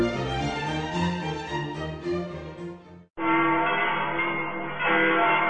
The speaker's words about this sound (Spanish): Escucha a las campanas. Sentirás que tu espíritu se eleva.